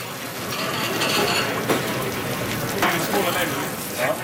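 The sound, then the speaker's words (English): Food frying in a fryer gives a loud, steady hiss and crackle that continues without a break throughout. “going in the fryer. We're going to start getting our sauce ready.”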